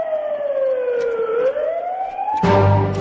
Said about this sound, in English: What the hell is that? That's a siren.